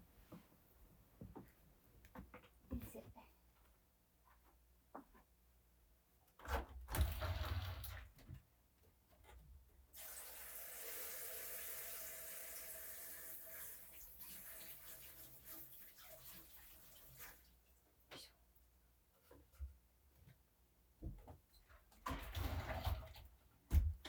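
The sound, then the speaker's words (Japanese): An item is washed under a running tap: a faint, steady hiss of flowing water lasts several seconds, with soft handling knocks and clatters before and after it. “じゃあちょっと一旦ね、こちらをね、休憩がてら洗いに行きます。”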